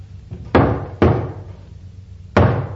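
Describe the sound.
Heavy knocks land on a door, three sharp thuds with an uneven rhythm: two close together, then a longer pause before the third. Each hit is loud and booming with a short decay, against a low steady hum.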